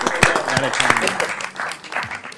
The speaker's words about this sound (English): Give him a round of applause, folks.